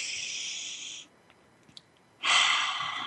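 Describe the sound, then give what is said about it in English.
A person taking a deep breath during a guided meditation: two long, airy breaths separated by a short quiet pause, each steady and fairly loud. “Let's breathe that in.”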